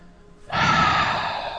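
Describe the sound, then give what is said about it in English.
A deep breath begins abruptly after a quiet moment as one long, airy, breathy exhale that holds steady, then eases slightly, with no talk. “we could probably use a few deep breaths.”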